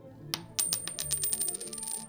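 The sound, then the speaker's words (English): Coins are handed over in a rapid run of bright metallic clinks and jingles, many small chiming hits tumbling close together. There is no speech. “Here, take these coins.”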